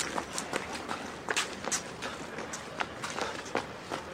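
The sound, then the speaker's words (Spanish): Quick footsteps trotting down a staircase, many light, rapid thuds and scuffs at a low level over a steady hiss. “Daniel baja por las escaleras y trota detrás de Alex”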